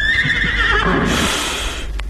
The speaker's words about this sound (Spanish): ¿De quién es ese caballo que en el corral relinchó?